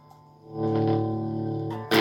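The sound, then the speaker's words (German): Electric guitar played through a used amplifier that sounds odd: after a quiet start, a sustained, heavily distorted chord with effects swells in and rings on, then a harsh noisy burst cuts in at the end. “hast du einen neuen Gitarrenverstärker gekriegt? Ja, ganz neu ist er nicht. Er ist ein bisschen gebraucht, aber ich mag ihn trotzdem. Ja. Und jetzt wollen wir ihn nochmal ausprobieren, weil vorher hat er ein bisschen komisch geklungen.”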